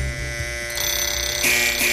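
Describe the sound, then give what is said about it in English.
An alarm goes off in the morning with a steady electronic ringing tone. It switches on partway through, then steps up louder and brighter and holds to the end. “there goes the alarm.”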